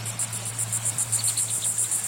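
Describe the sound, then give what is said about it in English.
Cicadas singing at a pristine marsh on Virginia's coast: a steady, high-pitched buzzing chirp pulsing rapidly and evenly throughout, over a low constant hum. “Cicadas sing at a pristine marsh on Virginia's coast”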